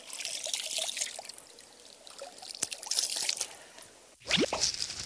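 Clear water being poured for drinking, with a soft trickle and scattered drips, then a louder, fuller gush of water near the end.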